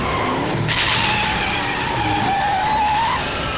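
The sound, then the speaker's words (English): Car tires skid in one long, loud squeal with a steady high screech over broad road noise, lasting the whole stretch. “Hear that? It's his car.”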